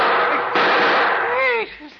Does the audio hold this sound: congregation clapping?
no